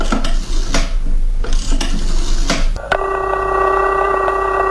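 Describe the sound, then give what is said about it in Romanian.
A telephone number being dialed: scraping, clicking handling noises for about three seconds, then a steady electronic line tone that holds to the end. “Formez numărul și...”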